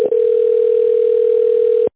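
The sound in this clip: A telephone tone sounds while a call is being connected: one steady, mid-pitched continuous tone that holds for almost two seconds, then cuts off.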